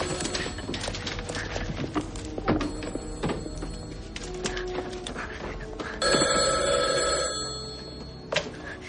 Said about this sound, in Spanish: El teléfono, teléfono, teléfono, teléfono. no lo he visto. ¿Dónde estará? ¿Dónde estará?